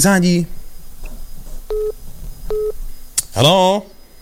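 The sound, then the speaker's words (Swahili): Short telephone line tones ring out as a listener calls in to a radio studio, two brief beeping bursts sitting between stretches of talk, with voices speaking before and after. “Naona kuna msikilizaji anapiga simu hapa, tumsikilize.”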